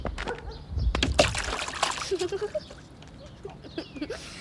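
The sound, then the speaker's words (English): A child jumps into a mud puddle after a running start. A wet splash and splatter is followed by dribbling and sloshing water, with voices nearby. “Are you afraid? Of a mud puddle? Of course not. I'll need a running start, but watch this.”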